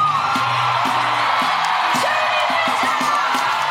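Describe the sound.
Frenetic cheering from a Newport concert crowd greeting a returning singer, a loud, continuous roar threaded with whoops, yells and shouts.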